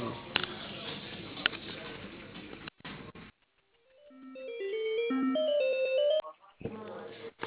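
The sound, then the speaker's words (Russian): Telephone ringing tone while a call is transferred to another line: a stepped series of clear electronic tones climbing and shifting in pitch, heard after a stretch of talk, with narrow, phone-line quality. “Оставайтесь на линии, соединю вас с Макаровым.”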